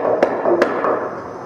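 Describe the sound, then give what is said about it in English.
Knocking on a surface: a few sharp, dry raps spaced apart over a steady low background hum, each rap short and clearly separated from the next. “Can you let Denise know that you're okay by just knocking back like this?”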